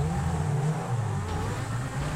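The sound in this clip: A powerful Zentorno sports car engine revs in a video game, giving a loud, steady low drone that holds throughout with no pauses and no talking.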